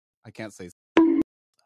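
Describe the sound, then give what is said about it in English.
A censor bleep covers a swear word in casual speech. One steady, mid-pitched tone lasts about a quarter second and follows a few quick spoken syllables. “I gotta like censor out mad shit on YouTube. Like, I can't even say, like, this might have to get beep out”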